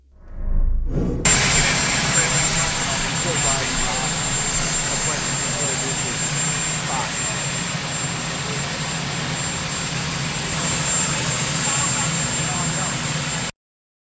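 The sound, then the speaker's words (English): Loud turbine roar and high whine of the presidential helicopter's engines, starting abruptly after about a second and holding steady and dense for roughly twelve seconds before cutting off. “It's a little bit hard to hear over Marine One there for people who are wondering what that noise was.”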